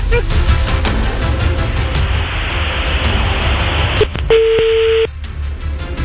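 A telephone call is placed: faint clicks and dialing sounds come first, then a single steady ringing tone sounds near the end, lasting under a second above a constant background hum.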